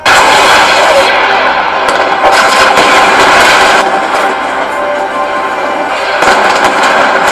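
Heavy gunfire rattles in a dense, loud, continuous barrage over a roaring, engine-like rumble, keeping up from start to finish.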